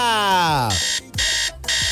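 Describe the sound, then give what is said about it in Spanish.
An alarm clock rings in three loud, harsh bursts separated by brief gaps, preceded by a falling electronic sweep. “Esa es la alarma para informarte que ya es momento de iniciar tu sector favorito.”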